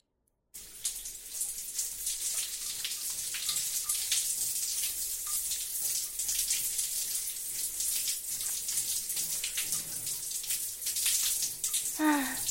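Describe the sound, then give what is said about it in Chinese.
Running water filling a bath: a steady, fairly quiet hissing splash that starts after a brief silence and continues throughout. “我去洗澡睡觉了。”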